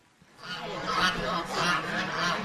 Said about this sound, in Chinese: 您现在可以带我去看一下我们的闽北白鹅吗？